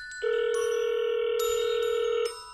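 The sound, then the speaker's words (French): A telephone rings for an incoming call: one sustained, steady electronic tone that starts abruptly, holds at an even level for about two seconds and then cuts off. “Mais il fallait encore appeler Manon.”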